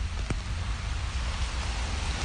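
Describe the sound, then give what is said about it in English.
Steady rain on a cold, wet day, a dense even hiss of falling drops that holds at one level throughout with no other clear sounds. “It's a short but rainy, cold walk to our meeting spot, which is a Ghanaian restaurant called African Kingdom.”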